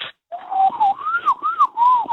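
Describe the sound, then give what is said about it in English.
A person whistles an imitation of a magpie call: a clear, mid-high warbling tone that swoops up and down in several quick wavering phrases, heard alone. “the ones for magpie and stuff. I do a lot of bird calls.”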